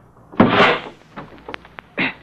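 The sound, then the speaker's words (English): A car door is forced open on a car by the road: a loud, broad scraping burst, then a few small sharp clicks, then a shorter closing burst. “Just get this door open.”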